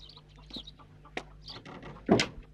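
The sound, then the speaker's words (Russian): Chickens and a rooster moving about a yard: soft, scattered clucks and chirps through most of the stretch, then a louder, brief squawk near the end. “Во дворе ходят куры, петух, черный котенок.”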